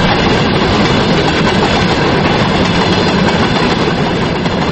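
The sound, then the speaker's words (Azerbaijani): A freight train hauling oil tank cars on a rail line in Aghstafa district, Azerbaijan, passing with a loud, continuous, dense rumble and clatter that holds steady throughout. “Axtafanın rayon mərkəzindən başqa kəndlərinə gedən dəmir yol xətləri 3 aya yaxındır ki, ancaq neft dolu çənləri daşıyır.”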